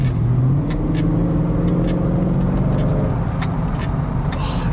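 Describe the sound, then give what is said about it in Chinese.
Flood-damaged BMW X5 with a naturally aspirated large-displacement engine revving, a steady low drone with a slowly climbing tone that holds loud throughout. “真的就自吸大排量的这种感觉，真的比那些小排量涡轮增压来的爽多了。”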